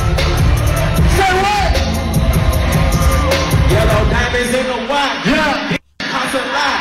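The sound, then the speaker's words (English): Concert crowd cheering wildly for rapper 21 Savage: a loud, continuous roar of whoops and yells over music, briefly cutting out near the end. “Crowd went crazy.”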